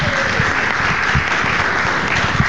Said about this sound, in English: That's our growing studio audience right here.